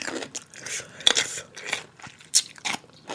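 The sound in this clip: ASMR chewing sounds: crisp crunching bites and wet mastication in irregular bursts, with a couple of sharper, louder crunches standing out among softer chewing noises, no talking.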